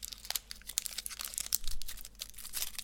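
Crinkling and tearing of a wrapper as a chocolate candy ball is unwrapped, a soft, continuous rustle of small crackles, faint and steady throughout with no speech.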